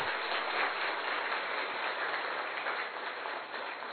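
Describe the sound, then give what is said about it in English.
An audience claps together in dense, steady applause, a muffled hiss of many overlapping hand claps that holds at an even level throughout with no voices. “So, one clapping for Sister Gayatri.”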